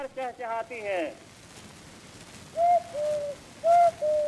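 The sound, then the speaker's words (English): On an old record, a person whistles in imitation of a catbird: a burst of quick chirping phrases, then several clear, sustained whistled notes. The whistling is fairly faint over a hissy background. “there was a genre of people whistling in imitation of birds”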